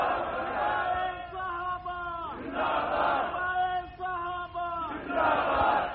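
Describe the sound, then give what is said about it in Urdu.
A large crowd at a religious rally chants "Allahu Akbar" in unison in response to the Nara-e-Takbir call. The voices are loud and sustained, and the chant repeats in swelling waves. “نعرہ تکبیر اللہ”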